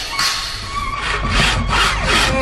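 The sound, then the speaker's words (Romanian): Chalk rasps against wooden boards as they are measured and marked, a few quick scraping strokes in a steady rhythm, loud and alone with no voices. “Ia te uită ce repede măsoară scândurile și le însemnează cu o bucată de cretă.”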